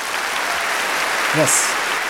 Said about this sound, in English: As the organizer, I appreciate that applause.